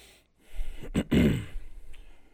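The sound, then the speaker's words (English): A man clears his throat once in a short, gruff, low rasp with a brief push before the main burst. It is fairly faint and there is no talking. “cleared his throat on that one”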